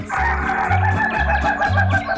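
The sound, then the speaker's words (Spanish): A rooster crows in a loud, continuous call over a steady pulsing low beat that repeats about every half second. “Mientras le subo la cresta a Rigoberto, el gallo del Laudi acá.”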